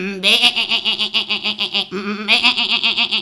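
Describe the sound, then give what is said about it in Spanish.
Goat bleating at the door of a house: two long, wavering, nasal bleats with a rapid tremolo, the second starting after a brief break, loud and alone. “¡Aquí mismo hay una cabrica! Y la madre de Juanico el Chapinica se fue a anca la cabra que estaba allí mismico en la puerta de la casa.”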